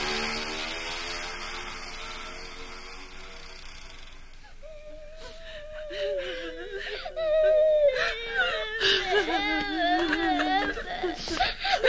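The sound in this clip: A woman cries and sobs in high, wavering whimpers and wails that grow louder and more broken in the second half, after a stretch of faint hiss.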